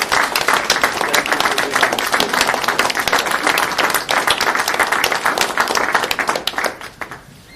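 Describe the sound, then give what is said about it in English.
Audience applause recognizing a person's achievements and devotion to the city: dense, sustained clapping from many hands, steady and loud for about six seconds before quickly tapering off at the end. “a very nice round of applause”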